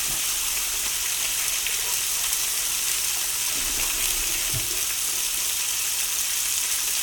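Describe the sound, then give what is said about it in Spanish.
Salted and peppered meat searing in a very hot, lightly oiled frying pan: a loud, steady, hissing sizzle that holds evenly for about seven seconds without pause. “Le echas una gotita de aceite y esperas hasta que esté un poquito humeante. Mientras tanto, echa sal, echa pimienta en la carne y en cuanto la sartén esté a saco, los echas.”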